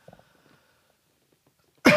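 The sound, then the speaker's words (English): A single sharp, loud cough clearing a frog in the throat bursts out at the very end after near silence. “excuse me, I had a frog in my throat there, folks.”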